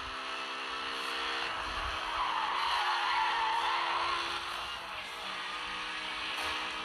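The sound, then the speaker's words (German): A racing car engine drones in a video game, with an Aston Martin running close behind on heavy boost. It is a steady, faint hum with a thin harmonic whine that swells slightly midway. No one talks. “Das ist der Aston Martin hinter mir, weil der viel zu viel Boost hatte.”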